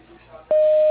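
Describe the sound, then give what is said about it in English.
A voicemail beep tone sounds once, a steady, pure mid-pitched electronic tone lasting under half a second that follows a faint, low background hum. “Please leave your message at the tone.”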